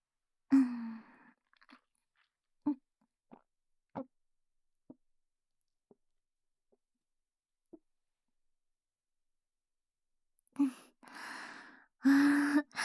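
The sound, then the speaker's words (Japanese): Chewing on a snack food brought as a gift: a few sharp, isolated crunchy bites spaced out over several seconds of near silence, followed by louder breathy sounds like a sigh near the end. “せっかく先生が差し入れしてくれたんだし、少しもらおうかな。それじゃ、いただきます。”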